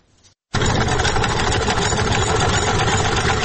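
Steady mechanical whirring and rattling from a hand-cranked sewing machine used by a tailor sewing clothes in Nuristan, starting abruptly after a brief quiet gap and then running loud and continuous to the end, with no talk.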